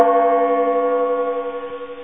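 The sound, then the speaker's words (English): A struck gong ringing, a sustained shimmer of stacked tones that slowly fades with a gentle wavering pulse. “That gong is very popular, by the way, and we get some complaints if we don't use the gong.”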